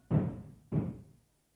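A prisoner bangs on a prison door, two heavy, dull knocks spaced about half a second apart, each decaying quickly into silence.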